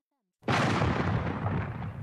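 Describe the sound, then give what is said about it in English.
A cannonball explodes inside a stockade with a sudden, loud blast that rolls straight into a long, heavy rumble that slowly fades. “Suddenly, a cannonball exploded inside the stockade.”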